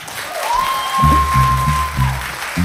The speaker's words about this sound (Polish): Brawa dla Piotra